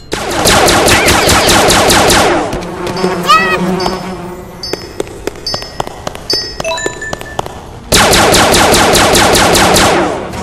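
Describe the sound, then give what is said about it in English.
Rapid automatic gunfire in a video game: two sustained bursts of fast, evenly spaced shots with a quieter stretch of electronic beeps and tonal blips between them. “Yeah, they shoot three now. But I can shoot more!”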